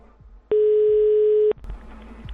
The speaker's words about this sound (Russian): Росгвардия, давайте им еще раз позвоним.